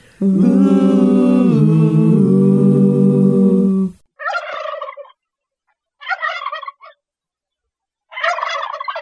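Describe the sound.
Turkeys gobbling in three rapid, rattling bursts spaced a second or two apart. They follow a loud, sustained harmonic tone that fills the first four seconds.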